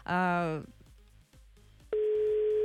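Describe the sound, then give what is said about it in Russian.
A telephone ringback tone on a call to Cheboksary, a steady mid-pitched electronic tone that starts after a brief voice and holds unbroken to the end. “Угу, уже и первый гудочек. Как хорошо, что мы так быстро дозвонились в Чебоксары.”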